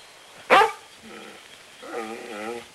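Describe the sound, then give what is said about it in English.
A dog on rocky grassland moors gives one sharp, loud bark, then a couple of softer, tonal whining yelps near the end. “In the distance, a man and dog appear.”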